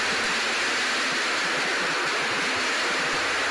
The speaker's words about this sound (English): First, right here, you can hear the floor being hosed down, which happens periodically.